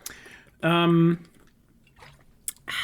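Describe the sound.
Pizza being chewed, soft wet mouth sounds in a few brief, quiet bursts separated by near-silence.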